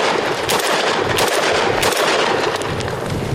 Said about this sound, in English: Here goes a couple shots.